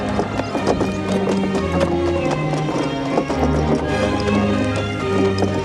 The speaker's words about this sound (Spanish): Eric y Ariel salen del castillo del príncipe en coche de caballos